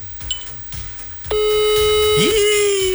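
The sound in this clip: An outgoing telephone call: a few faint beeps and clicks, then a loud, steady continuous call tone that holds to the end.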